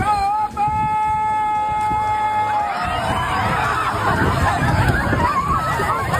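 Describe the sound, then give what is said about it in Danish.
Festival crowd noise as people topple a fence on the festival's opening: a held, reedy horn-like tone sounds for the first few seconds, then a loud, broad surge of shouting and cheering crowd carries on to the end. “Og det her, det er lyden af, at hegnet blev væltet i går ved 18-tiden.”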